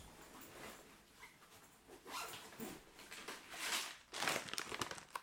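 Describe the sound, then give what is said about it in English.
Dry crinkling of a Disney-brand wrapper around assorted sour ball candies, with irregular crackly bursts that grow louder and denser toward the end, heard alone without talk. “There, Disney, assorted sour balls. I'm going to have a couple right now.”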